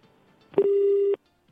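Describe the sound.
A telephone ring tone on an outgoing call: one steady electronic tone lasting about half a second that cuts off abruptly into near silence, as if the line was hung up. Faint low noise comes before it.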